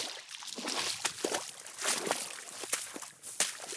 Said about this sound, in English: Right now, I'm walking across a little pond.